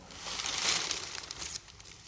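Paper rustles and crinkles as a printed newspaper from 1957 is handled and its pages are turned. The soft, dry crackling swells to a peak early on, then fades into lighter, scattered rustles with no voices.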